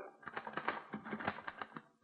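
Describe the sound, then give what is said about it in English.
A typewriter is used to write a letter. Many quick, quiet keystrokes clatter in an uneven but steady rhythm, with no voices. “Here's a typewriter. Your secretary uses one. Perhaps your son or daughter write their school essays on a machine like this. This one is used to write a letter.”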